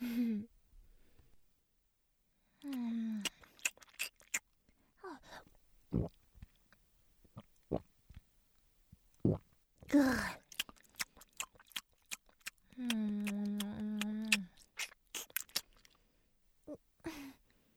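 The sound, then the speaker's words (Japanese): Someone chewing and biting through a meal: irregular soft clicks and wet mouth sounds scattered across quiet gaps, broken by a few brief voiced sighs or murmurs. “ごちそうさま。いっぱい食べた。”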